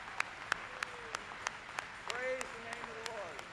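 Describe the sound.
An audience at a Branham Tabernacle camp meeting claps to acclaim the Lord. Sharp, evenly spaced claps come about every third of a second, quiet overall, with voices rising over them in the second half.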